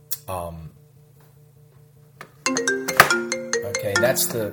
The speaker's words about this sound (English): disadvantage of preaching to my computer when a call comes over. It makes noise. That was obviously some sales call.